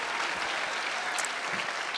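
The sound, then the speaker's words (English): Enthusiastic applause from a live audience greeting a performer before a song, a thick, even clatter of many hands clapping throughout, with no talk on top. “May I have a round of applause for Jim?”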